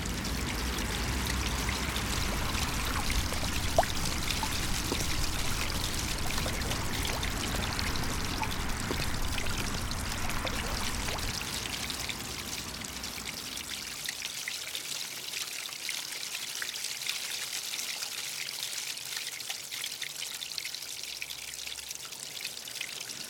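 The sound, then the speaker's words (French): Water flows from a fountain in a steady, continuous rush that thins and lightens in the second half. “Une eau vive, claire et limpide s'écoule sous vos yeux.”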